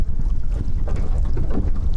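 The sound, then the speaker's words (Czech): A sightseeing boat rocks at the mouth of the icefjord near Ilulissat among floating ice, with a steady low rumble and gusts of wind buffeting throughout at a fairly loud level. “Naše vyhlídková loď se pohupuje v ústí Jakobsonova fjordu a všude kolem plavou kusy ledu.”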